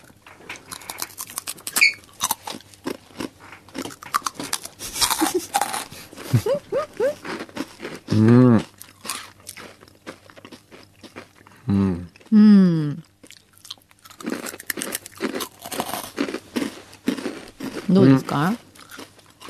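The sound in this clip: Chewing of sugar butter flavored Happy Turn rice crackers: many small crunchy clicks and crackles run steadily beneath almost continuous conversation between people.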